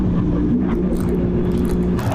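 A small, cramped car is driving and turning, and its engine gives a steady, loud, low rumbling drone. The tone stays fairly constant throughout, with faint higher-pitched rattles near the end.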